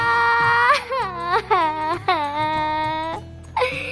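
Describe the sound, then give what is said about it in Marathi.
A person cries and sobs in a Marathi comedy scene, with wailing, quavering cries whose pitch bends up and down in several breathy bursts separated by short catches of breath. “भाऊ नको रडू भाऊ नको रडू”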